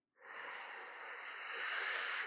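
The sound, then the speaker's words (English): One long, deep breath drawn in through the nose or mouth, a soft, steady airy hiss that grows slightly louder toward the end, with no talking. “Before we dive in, let's all take a breath. Let's do it. So deep breath in”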